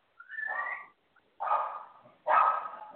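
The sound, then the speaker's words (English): A Terrapoo dog barks three times. The barks are drawn-out and whiny, each lasting under a second, with short gaps between them and no talk. “Now that's my dog.”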